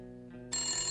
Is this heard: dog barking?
no